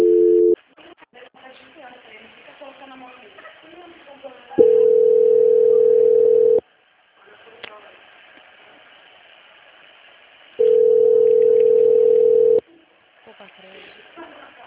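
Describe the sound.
Telephone line tones while a call is transferred: two long, steady low ringing tones of about two seconds each, separated by stretches of faint, muffled line noise, with a short tone at the very start.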